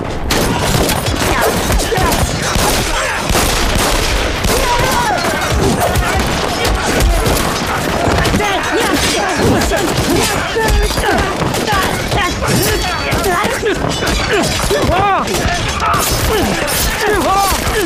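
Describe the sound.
Gunfire and explosions crackle through a radio drama shootout with bandits, a dense, loud, continuous barrage of shots and blasts with voices mixed into the chaos.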